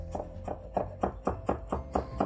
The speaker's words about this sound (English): I'm gonna grab this clove of garlic. I'm just going to chop this very, very finely so there are not huge chunks of garlic kind of running around in our burgers.